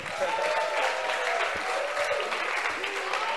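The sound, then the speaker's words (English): An audience at a church gathering applauds steadily to welcome the pastor, with dense, continuous clapping that stays loud from start to finish. “Put your hands together. Let's welcome our pastor.”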